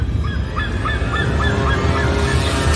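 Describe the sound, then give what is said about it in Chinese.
Sea eagle calling: a rapid series of many short, yelping notes repeated evenly over a loud, steady rushing background. “海雕，”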